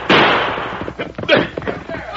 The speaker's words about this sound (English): Quick, fire two shots. Call the men in.